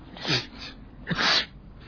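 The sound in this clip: Two sneezes, each a short voiced catch of breath followed by a breathy, explosive burst, with a brief gap between them and no speech.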